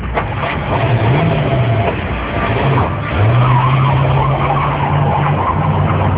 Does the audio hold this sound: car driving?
yes

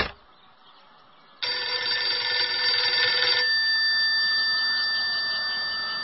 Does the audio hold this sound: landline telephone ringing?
yes

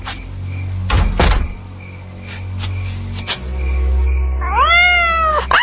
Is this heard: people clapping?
no

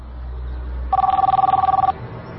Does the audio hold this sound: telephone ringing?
yes

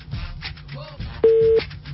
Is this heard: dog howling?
no

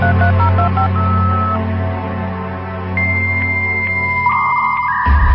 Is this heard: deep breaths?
no

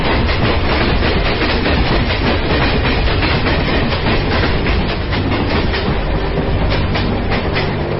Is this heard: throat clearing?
no

